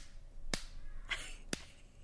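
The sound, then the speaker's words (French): Three sharp, wet-edged slaps on a pork tenderloin in a bag, each a short crisp smack, spaced unevenly over about two seconds, with faint background noise and no talking. “J'avais un peu de temps libre en fin de semaine. Pas, j'ai claqué un filet de porc. Il y avait un filet de porc dans un sac. Puis j'aimais le bruit que ça faisait.”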